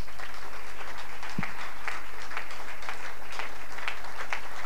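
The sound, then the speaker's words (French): A church audience stands and applauds during worship, making a dense, continuous patter of clapping at an even, steady level, with one low thump near the start. “Nous nous levons pour acclamer le Seigneur, notre Dieu.”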